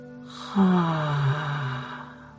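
A deep exhale during a guided relaxation breathing exercise: one long, audible breath out with a faint voiced tone, strongest at the start and slowly fading over about a second and a half.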